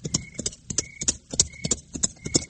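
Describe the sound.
Horse hooves clip-clopping as a rider sets off, a brisk, steady run of many crisp hoofbeats in a galloping rhythm, loud and continuous throughout.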